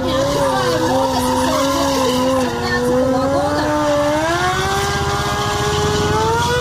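Motorcycle engines droning during a motorcycle season opening ride through a city, a loud, sustained buzzing tone that climbs gradually in pitch as the bikes accelerate.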